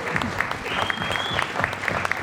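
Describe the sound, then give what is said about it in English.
An audience applauds at a live event with dense, steady clapping from many hands. It stays even and sustained throughout, with no clear talk. “Give yourselves another round of applause.”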